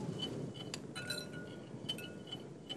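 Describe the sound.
Silica powder stirred into clear resin gives faint, light clinks and scrapes against the container, scattered irregularly over a quiet, hissy background.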